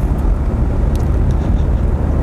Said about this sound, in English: I apologize for all the road noise because I am in the mobile recording studio this fine afternoon.